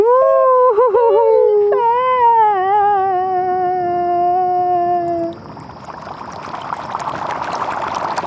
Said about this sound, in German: Und wie sie heulen und jammern.